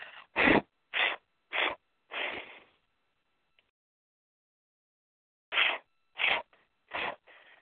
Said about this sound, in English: using your breath, blow to release.